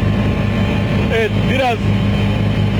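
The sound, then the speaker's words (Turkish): Street traffic in Istanbul: a steady, dense rumble of vehicle engines that fills the whole stretch, with a voice briefly heard over it. “biraz kameraman arkadaşım sizlere İstanbul'daki trafiği de gösteriyor.”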